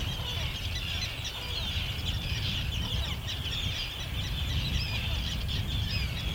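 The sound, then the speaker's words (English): A dense, continuous chorus of harsh calls from a colony of common and Arctic terns nesting on a harbour island off Tiree. The calling is loud and steady throughout, layered over a low rumble. “Tiree, and these are common and Arctic terns, and they're nesting on an island in the harbour just opposite where we are staying.”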